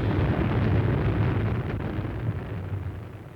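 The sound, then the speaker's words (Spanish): Rumbling blasts of energy shots striking rock, with the stone cracking apart beneath them: a continuous low, loud roar that slowly fades, with no voices. “He-Man, imitando su ejemplo, empieza a disparar a los pies de los tres demonios, que huyen despavoridos al sentir la piedra resquebrajarse bajo sus pies.”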